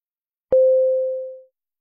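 A single electronic telephone tone sounds as a call is placed to a mobile phone. It is a steady mid-pitched beep lasting about a second, starting sharply and gradually fading, heard alone.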